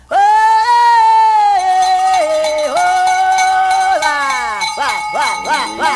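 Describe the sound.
A herder's drawn-out sung call drives cattle along: one long, loud held tone that wavers slightly in pitch, then several short rising and falling shouts near the end.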